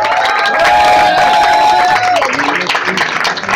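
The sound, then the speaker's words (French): Loud applause and cheering from an audience as a young team member is introduced on stage, a dense, continuous wash of clapping and crowd voices that holds steady for the whole stretch and thins slightly toward the end. “On applaudit très fort, ce jeune de l'équipe maintenant.”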